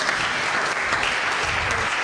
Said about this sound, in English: Come on, you've got to give Reuben a round of applause as well.